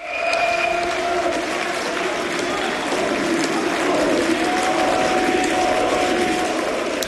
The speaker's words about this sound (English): That's the sound of supporters of the far-right AfD celebrating a landslide election victory in the former East German state of Saxony-Anhalt.